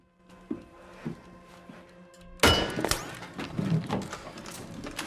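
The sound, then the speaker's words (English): Bullet striking the hull of a boat: a couple of soft thuds, then one loud sharp impact with a brittle, shattering crack and rattling debris that trails off unevenly. “When a third bullet hits the hull, some of the Highlanders ready their weapons and prepare to evacuate.”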